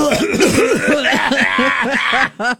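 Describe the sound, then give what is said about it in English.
Throats being cleared in a quick run of voiced, ahem-like bursts, each with a bending tone, loud and repeated many times before a short final burst. “let's all clear our throat.”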